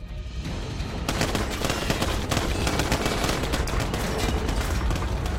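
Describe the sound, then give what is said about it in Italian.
Dense battle gunfire surrounds an early tank as it opens fire with one of its cannons, with flashes coming from nearby woods. The crackle is loud and unbroken throughout, duller in the first second before turning sharper. “Detti l'ordine di aprire il fuoco con uno dei cannoni.”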